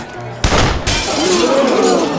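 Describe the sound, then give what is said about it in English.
A bullet smashes a glass bowl sitting on a piano, giving a sudden bright shattering crash with scattering debris, followed by a voice speaking. “The bullet Billy Ray fired hit the glass bowl that sat on top of the piano, smashing it and scattering the coins.”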